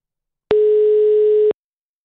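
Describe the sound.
Telephone line tone while calling someone: a single steady electronic beep lasting about one second, clean and loud, with silence before and after.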